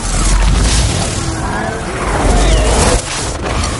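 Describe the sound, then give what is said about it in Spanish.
A magical creature smashes through tunnel walls in a fantasy film: a loud, continuous crashing rumble with heavy low-end weight and gritty debris noise, briefly dipping before surging again. “La criatura ataca de nuevo destrozando las paredes del túnel.”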